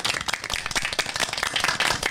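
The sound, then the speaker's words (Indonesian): Audience clapping at a scout (pramuka) gathering: many hands beating in a brisk, uneven patter that stays loud and steady from start to finish. “Tepuk tangan untuk Kak Ridwan.”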